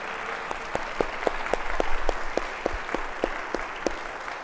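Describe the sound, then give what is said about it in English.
A church audience at a Sunday traditional service applauds to welcome a new director of student ministries. Steady, moderately loud clapping carries a run of regularly spaced sharper claps that stand out and holds throughout. “Jason's right down front. Will you help me welcome Jason?”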